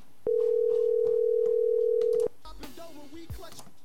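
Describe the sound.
A telephone ringing tone sounds as one steady, unbroken tone for about two seconds, then cuts off. A faint voice follows briefly.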